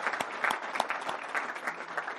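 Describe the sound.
Audience applause as a person is welcomed by standing up: dense, continuous clapping from many hands at a steady level, with no voices over it.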